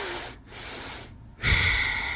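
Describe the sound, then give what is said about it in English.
Slow breathing through a constricted throat, giving a hoarse, windy rasp: three long airy breaths separated by short gaps, the last one louder and rougher with a thin whistling edge. “You can constrict your throat a bit when you breathe out to get that wind pipe-ish sound.”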